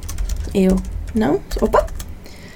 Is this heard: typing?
yes